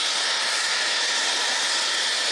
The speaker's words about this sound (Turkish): borudan basınçlı şekilde çıkan gaz metrelerce havaya yükselirken yüksek ses nedeniyle